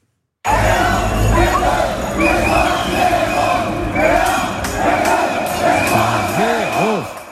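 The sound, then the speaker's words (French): French football supporters on Place d'Erlon in Reims cheer France's 3-0 World Cup win over Sweden that sent the team to the round of 16. A loud, continuous roar of shouting and whooping voices starts after a brief silence. “À Reims, comme partout en France, les supporters ont à nouveau célébré l'équipe de France qualifiée pour les huitièmes de finale de la Coupe du Monde de foot grâce à une victoire nette 3-0 face à la Suède.”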